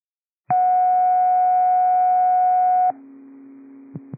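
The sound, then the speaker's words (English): Radio dispatch cancellation tones: a loud, steady high tone holds for a couple of seconds, then drops to a quieter, lower tone interrupted by a couple of brief clicks. “District 8, these are cancellation tones.”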